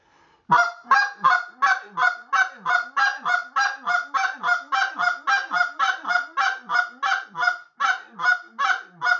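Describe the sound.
Double clucks blown on a hand-held goose call, mimicking a goose: many rhythmic honking notes in a steady, even series, each a quick two-part cluck with a sharp break, loud and alone with no talk.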